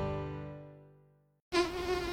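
A mosquito's thin whining buzz used as an effect in an advert for mosquito control. The steady harmonic drone fades out over about a second and a half, then cuts back in abruptly and loudly.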